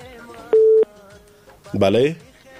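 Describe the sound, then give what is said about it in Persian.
A telephone tone sounds for a busy line during a call-in: a single steady, mid-pitched beep, followed after a pause by a voice speaking. “یک تماس دیگر رو می گیریم خیر است و بسیار مصروف بود”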